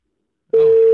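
Telephone busy signal on a call that goes unanswered: a loud, steady mid-pitched tone begins about halfway through and holds unbroken to the end, with silence before it.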